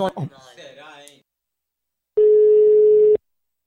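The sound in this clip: Ringing tone of an outgoing telephone call, heard as one steady, low, humming beep lasting about a second, alone after a brief stretch of talk and a short silence.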